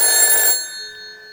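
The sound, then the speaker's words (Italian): A telephone ringing: one bright, bell-like ring burst that cuts off, leaving a few thin ringing tones fading away. “proviamo a far suonare il telefono al nostro amico, non so se a quest'ora è sveglio, proviamo, vediamo un po', suona.”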